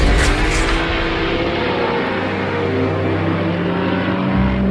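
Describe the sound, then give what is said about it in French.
Racing cars speed down the Hunaudières straight, producing a loud, sustained engine roar with a steady, droning, high-revving whine that carries through the whole moment. “Une minute et 35 secondes plus tard, les premiers bolides arrivent au bout de la ligne droite du Hunaudière”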